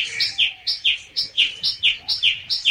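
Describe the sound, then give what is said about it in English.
A songbird sings a lively run of many bright, high-pitched chirps, each a quick two-note phrase repeated at a brisk, steady rhythm, loud and clear with no voices. “And Darzee filled his throat and sang.”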